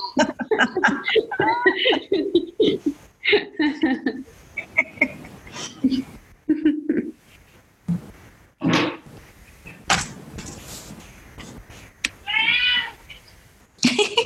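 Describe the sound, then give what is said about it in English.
A cat meows among people chatting, one clear high, wavering meow standing out near the end while voices talk and chuckle around it. “Oh, that's the cat. That's not my cat.”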